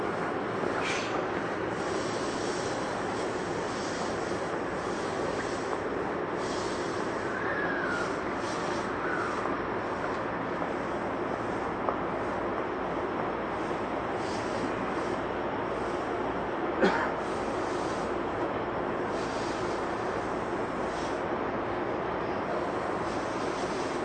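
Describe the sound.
A Tokyu 8500 series train runs between Omotesando and Azamino, giving a steady, loud rumble of motor and wheel noise throughout with a few thin high squeals rising above it.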